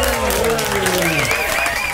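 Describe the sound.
Crowd applause greeting the first DJ act of the day at a dance music event, a thick wash of clapping with tonal crowd voices rising above it, loud for about two seconds.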